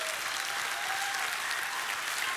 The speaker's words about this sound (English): You don't have to clap for that.